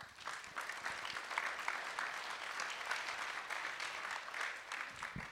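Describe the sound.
An audience at a talk claps to welcome an artist and teacher to the stage, a steady, even patter of many hands that holds at moderate loudness throughout without swelling or fading.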